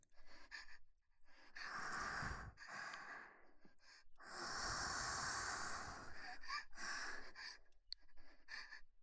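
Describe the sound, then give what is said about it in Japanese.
Deep breaths drawn in and let out: a few long, breathy, hissing inhales and exhales separated by short quiet pauses, with no talking. “深呼吸して、もう一回、”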